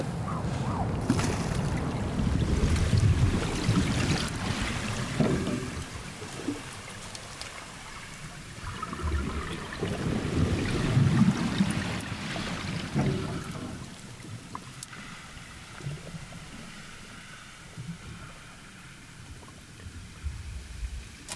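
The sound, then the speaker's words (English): Tidal waters swish underwater as picked up by a hydrophone, a broad, continuous rushing wash that swells and ebbs in slow surges, with no voices. “What I'm hearing now underwater is that wonderful harmonic swish, that tug of the tidal waters”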